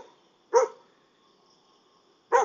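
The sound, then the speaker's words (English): A dog barks in Thailand, where many dogs roam, in the early morning: two short, sharp barks nearly two seconds apart with quiet between them and no talking. “sorry, doggos. There are lots of dogs in Thailand.”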